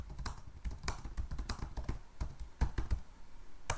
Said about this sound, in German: Bildersuche in einer großen Fotodatenbank. Ich gebe den Suchbegriff Chefin ein.